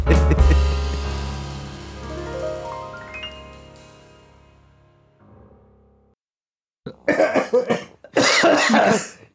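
Coughing from someone with a piece of dry biscuit stuck in the throat: a couple of harsh, forceful bursts of rough coughs near the end, after a long fading tone and a moment of silence.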